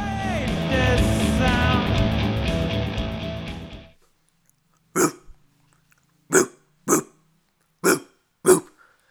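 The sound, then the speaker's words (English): A person imitates a dog with five short, sharp bark-like yelps spaced by brief silences. They follow a few seconds of dense, loud sound that stops abruptly. “I fooled you. That's you probably thought that was a dog, but it's me”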